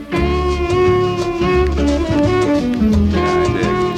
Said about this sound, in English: That is a Bossa Nova beat, of course